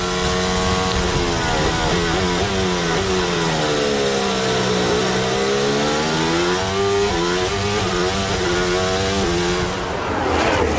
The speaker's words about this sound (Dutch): Onboordgeluid komt bij de nummer 1 vandaan.